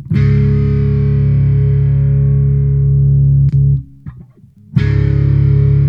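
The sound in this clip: An electric guitar note played with the reverb pedal switched off rings as a thick, distorted, sustained tone for about three and a half seconds, then cuts off. A few faint scrapes follow before a second note strikes near the end.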